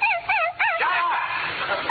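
A puppy whimpers in a few high, wavering whines and short yips, fairly loud and heard alone.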